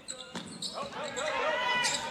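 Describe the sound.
A basketball dribbled on a gym floor during a boys' high school game between Triton and Bethlehem Academy: several sharp, hollow bounces at an uneven pace beneath a commentator's voice.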